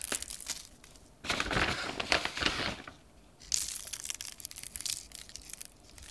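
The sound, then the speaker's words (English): Coarse pretzel salt, pressed into little balls, is sprinkled over pretzels, especially their bellies, making faint, crackly, gritty rustling that comes in a few bursts with quieter gaps between, and no talk. “pressed together into little, little balls of salt. And sprinkle the pretzels, especially”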